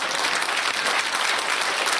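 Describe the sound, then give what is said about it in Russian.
Dense, steady audience applause, fairly loud and unbroken, with many hands clapping together for the whole stretch and no pause or break in the sound. “Аплодисменты. За что аплодисмент?”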